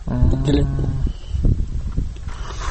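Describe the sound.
Cattle mooing, livestock roaming among city garbage bins: a low, droning moo at the start, followed by rumbling background noise with a few scattered thuds.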